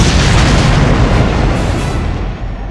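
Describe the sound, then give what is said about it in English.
An aircraft fuel tank ruptures and explodes in a loud, deep, roaring boom. The rumble fills the whole clip and fades slightly toward the end. “A shaved sliver of a second later, he was blinded by a hell-hued blossom of light as the Dragonfly fuel tank ruptured, ignited, and exploded.”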